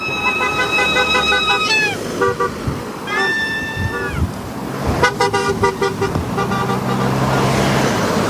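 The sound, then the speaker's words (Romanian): Car horns honk in repeated bursts, some long sustained tones and some short blasts, as drivers celebrate the opening of a new motorway section, with traffic noise beneath, a flurry of overlapping honks and faint cheering in the background. “Zeci de șoferi au marcat momentul deschiderii noului tronson de autostradă cu claxoane, vuvuzele și urale.”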